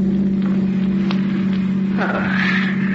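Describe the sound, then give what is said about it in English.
A car drives down the coast road toward New York with a steady low engine drone and hum throughout. A voice is briefly heard near the end. “And later, as you're driving Neil down the coast toward New York.”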